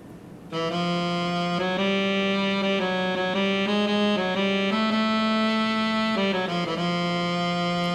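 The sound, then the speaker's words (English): A synthetic melodic line reconstructed from brain sensor data recorded while someone listened to music, played alone. A buzzy, harmonically rich tone steps through a series of sustained notes, rising and falling in pitch at a moderate, even volume. “crunched the data down, did moving averages per note duration, and came up with a melodic contour from the data that sounds like this.”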